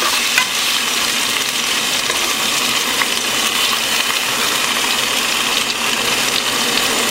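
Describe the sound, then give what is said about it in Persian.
Food sizzles as it fries in oil in a pan that has a little salt added. The crackle is loud, dense and steady throughout, with no voices. “خب اینو میذارم سرخ میشه”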